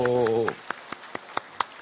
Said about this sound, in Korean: 우리 옆사람과 같이 인사하실 때 먼저 힘차게 박수 쳐주시고